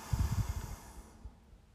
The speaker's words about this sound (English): Hold it at the top and exhale through the nose.